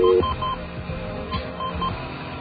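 Touch-tone telephone dialing as a marine operator's number is keyed in, a quick run of clipped dual-tone beeps over a thin, band-limited line hiss.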